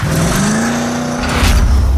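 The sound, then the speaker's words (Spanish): A car engine accelerates in heavy traffic. A loud, steady roar carries a droning tone that climbs slightly before the noise thickens toward the end. “atascado en el tráfico espantoso. ¡Oh, acelera, oh! ¡Acelera! ¡Oh, acelera! ¡Acelera, oh!”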